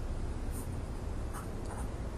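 Faint, continuous scratching of a pencil sketching a human figure on paper, a soft dry rasp that runs steadily throughout without clear pauses.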